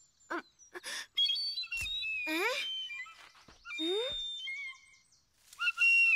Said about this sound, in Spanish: Te quiero decir algunas cosas sobre este silbato de pluma, hijo.